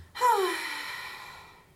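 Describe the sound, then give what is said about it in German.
A deep, longing sigh comes from the gnarled trunk of an old maple tree where a forest spirit rests for the night under a full moon. A single long, voiced sigh starts sharply and slowly fades out over more than a second. “Und nach dem Säuseln hört er ein tiefes, sehnsuchtsvolles Seufzen.”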